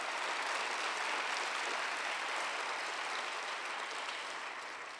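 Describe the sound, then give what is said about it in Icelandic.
Audience applause for sign language interpreters, a dense, steady wash of many hands clapping that stays loud throughout and eases off slightly at the very end. “Og takkmálstúlkarnir okkar, já, klappiði fyrir þeim, það var frábær.”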